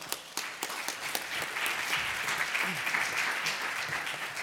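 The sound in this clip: Audience applause welcoming two speakers to a morning presentation, starting with a few distinct claps that quickly fill into a steady, fairly soft patter of many hands.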